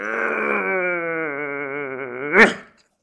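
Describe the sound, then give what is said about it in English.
A long, voiced yawn made while stretching: a wavering, moaning tone that slowly sinks in pitch, then ends in a brief breathy burst before trailing off into silence. “Let's take a little break because I'm yawning and stretching, trying to come alive”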